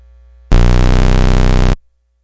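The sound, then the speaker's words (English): Horrible noise from a tape recorder: one loud, harsh buzzing screech about a second long that starts and stops abruptly, with faint hum before and silence after. “Well, that horrible noise you heard is, in fact, the tape recorder,”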